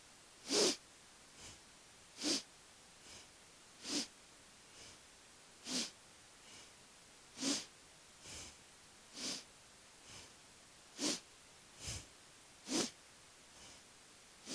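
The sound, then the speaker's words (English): Breathing during an exercise warm-up: many sharp, forceful inhales and exhales through the nose come in a steady, regular rhythm. Louder and softer bursts alternate, and no one talks. “You should hear your breath. Hear the inhale and the exhale.”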